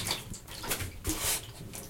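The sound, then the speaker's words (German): Water leaking and running out near a toilet, a faint, uneven splashing and trickling with a few brief louder gushes. “Ah, hier läuft Wasser aus.”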